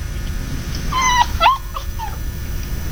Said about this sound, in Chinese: 看着缩在沙发底的小狗，苏明成